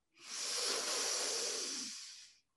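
A single deep breath drawn in through the airway, a soft steady hiss that swells, holds for about two seconds and fades out, heard alone.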